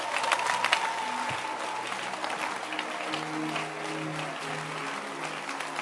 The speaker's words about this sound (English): Can you clap your hands for church?